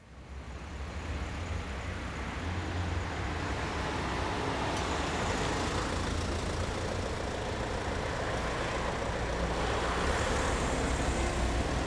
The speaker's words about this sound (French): Le premier est typique des carrefours fréquentés, qui juxtapose les sons des passages rapides des véhicules et les sons des moteurs en attente tournant au ralenti.